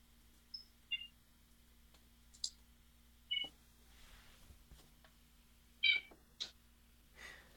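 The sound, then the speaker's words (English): A pet cat meows in several faint, brief, high-pitched mews that are scattered irregularly, with quiet gaps between them. “Do I hear a Crane Funkles kitty? You do.”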